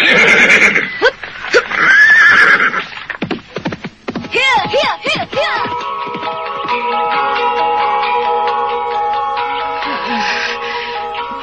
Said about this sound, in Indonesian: Kita bisa menggunakan kuda prajurit itu